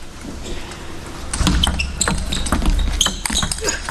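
A table tennis ball clips the table edge during a professional men's singles match. Several sharp, light ball ticks sound in quick succession over steady background noise.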